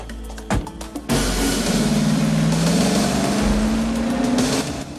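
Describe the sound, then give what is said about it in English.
An armored car with headlights blazing speeds along a dirt track, its engine a loud continuous roar. After a few brief knocks at the start, the engine tone climbs gradually in pitch as the vehicle accelerates. “Headlights blazing, the armored car speeds along a dirt track.”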